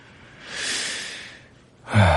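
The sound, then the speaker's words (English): A single deep, noisy inhale swells and fades over about a second, followed by a brief vocal onset right at the end. “I take a deep breath and begin speaking my lines.”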